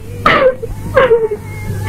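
A woman sobs in two short, wavering bursts, each sliding downward in pitch, over a faint low hum.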